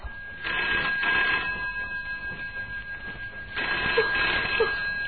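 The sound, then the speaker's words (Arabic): A telephone bell rings in two long bursts of bright, trilling electric ringing separated by a pause of about two seconds, fairly loud and clear with no talk over it. “هذا لي، هذا التليفون لي، أنا متأكدة.”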